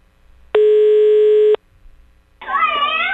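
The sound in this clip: A telephone ringback tone as a call is placed: one steady, buzzy tone lasting about a second, then a short lull before a wavering voice begins.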